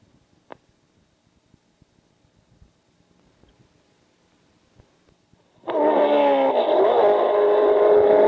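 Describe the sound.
Auto racing cars roar in as a loud, steady engine drone with strong revving harmonics. It starts suddenly after several seconds of near silence broken only by faint clicks.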